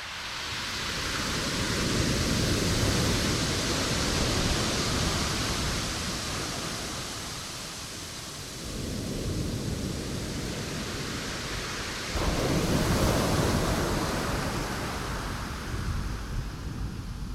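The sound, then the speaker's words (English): Ocean surf washes onto Rialto Beach, a shore strewn with driftwood logs. A continuous roaring hiss swells and eases, with louder surges building around the middle and again near the end. “And I'd like to share with you the sound of the most musical beach in the world to my ears. It's called Rialto Beach.”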